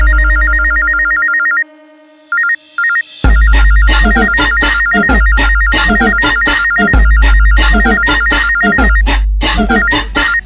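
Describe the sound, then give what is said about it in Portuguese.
A mobile phone ringtone plays as a clear electronic melody with short repeated tones. Just past three seconds, a loud dance track with a heavy, punchy bass beat and busy percussion cuts in and carries on to the end. “Ei, atende aí. Que agora vou te ligar, que agora vou te ligar.”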